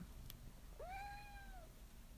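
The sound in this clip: A cat gives a single clear meow that swoops up and then holds and slowly drops, faint and alone over low background hiss.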